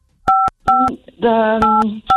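Telephone keypad dialing tones sound while someone places a call to a person's boss. A few short, clean electronic beeps come one after another, with a sustained tonal sound overlapping in the middle.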